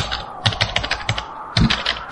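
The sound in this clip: Fast typing on a computer keyboard: a rapid, uneven run of many crisp key clicks with no voices.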